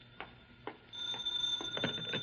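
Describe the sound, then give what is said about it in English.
A telephone ringing: a few faint clicks give way to a steady, high, trilling bell that keeps ringing to the end. “Now the phone.”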